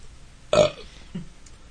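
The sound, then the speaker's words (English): Little human burps: one short, loud burp, then a smaller, fainter one about half a second later, with no talking. “Little burps.”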